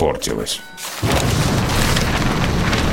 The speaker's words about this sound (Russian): В такой шторм мы еще никогда не попадали. Это не просто шторм, салажата. Это тропический тайфун. Волны как горы.